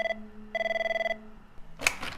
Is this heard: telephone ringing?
yes